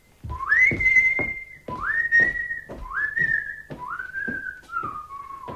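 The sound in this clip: A man whistles an opera melody in clear, bright phrases. Each phrase slides up to a held note, and several repeat with short breaks between them, with no talk.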